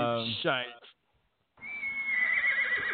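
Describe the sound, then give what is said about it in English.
A horse neighs in two bursts split by a short silence: first a falling, harmonic whinny, then a longer, quavering call. “It's a horsey. Absolutely.”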